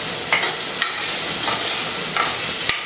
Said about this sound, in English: Now let the onions cook till they become translucent.